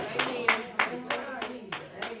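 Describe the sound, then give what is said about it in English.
Congregation hand clapping in praise: a series of sharp claps in a steady, regular rhythm, with voices sounding beneath them. “I want you to shout out and say amen and give God a good hand clap of praise.”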